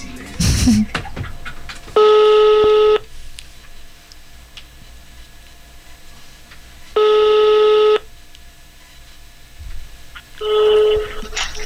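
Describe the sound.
Telephone ringback tones for an on-air call to a radio program: three steady, buzzing electronic rings, each about a second long, separated by even gaps of quiet.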